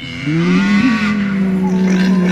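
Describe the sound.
A cow moos aboard a boat in a video game: one long, loud, steady low bellow that carries through the whole clip, with a slight pitch wobble near its start.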